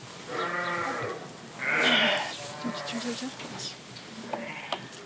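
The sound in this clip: Lambs bleating on a sheep farm where newborn lambs are being tended: a few loud, wavering, harmonic bleats that come in overlapping bursts, with quieter animal calls between them.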